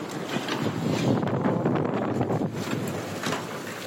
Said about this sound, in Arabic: شوف العاصفة صارت.